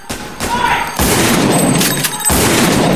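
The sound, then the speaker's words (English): Gunfire as an officer shoots bullet after bullet into a bag of money: loud, dense volleys of shots with sharp onsets, one heavy burst after another. “He's firing bullet after bullet into the bag of money.”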